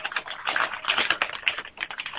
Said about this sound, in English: somebody's typing or something